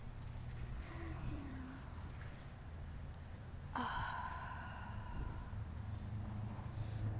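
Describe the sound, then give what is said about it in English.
Slow, deep breathing during a guided relaxation exercise, a faint, soft, airy rush of breath that swells partway through and carries on to the end over a quiet, low background. “Now I want you to breathe deeply.”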